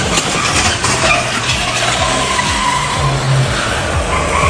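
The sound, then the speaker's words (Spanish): A car's tires skid at a street corner while it drives the wrong way against traffic. A loud, continuous scrubbing squeal mixes with engine roar across the whole stretch, without a distinct single impact. “Chocó un vehículo en la esquina. Chocó el kiosquito que está ahí en la esquina.”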